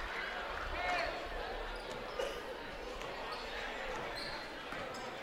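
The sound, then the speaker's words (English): A basketball dribbled on a court during a women's game, its bounces faint and blended into a steady wash of arena crowd noise, with a few brief higher squeaks. “Grace Farr on the dribble, hands it off to Sherman.”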